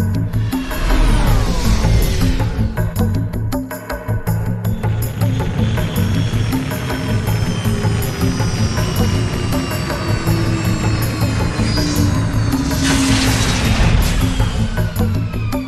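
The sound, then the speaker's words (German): A hijacked spaceship lands softly in tall grass: a loud, continuous engine roar with deep rumbling, whining tones that sweep up and down, and swelling rushes of noise, steady for the whole stretch. “Das gekaperte Schiff, der Suma, mit seiner eigenartigen Besatzung, landet sanft im hohen Gras.”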